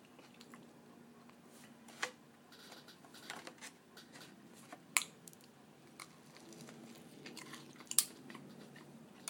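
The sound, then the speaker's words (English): Someone chews and bites into a fish cake with a very fine breadcrumb coating, making faint, soft, wet mouth sounds broken by a few sharper crunchy clicks, with no talking. “Right, let's try one of these fish cake things, which I think are these ones.”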